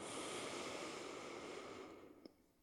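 A long, deep breath in, drawn as a steady breathy hiss for about two seconds before it tapers off, followed by a faint click.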